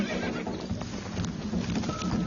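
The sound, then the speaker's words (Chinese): A frightened, injured foal with cuts, tears and swollen knees runs off: hooves clop in quick irregular steps beneath a continuous rough rustle, with a brief high whinny near the end. “还没等鲍勃再靠近一点，这匹受伤的小马驹就吓得跑掉了。”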